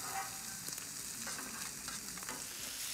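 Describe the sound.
Onions fry in a pan with a soft, steady sizzle and hiss, joined by a few faint taps as they are stirred.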